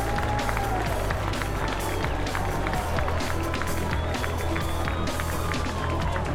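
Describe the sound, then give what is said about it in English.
Cubs fans at Werner Park applauding a home run at a minor-league baseball game: dense, steady clapping and crowd noise lasting throughout, with a voice talking over it. “He gets a hand from the Cubs fans in attendance here at Werner Park.”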